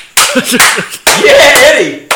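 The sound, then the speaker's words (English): A few loud, sharp hand claps from a person imitating a concert crowd, with a shouting voice around them. “You know, feel sorry for the ears. But that was a loud clap.”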